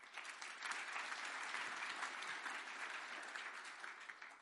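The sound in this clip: An audience at a church gathering applauds as a speaker is welcomed to the front. The clapping is dense, steady and even throughout, with no voices standing out.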